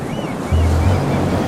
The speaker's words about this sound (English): A wave washes onto shore.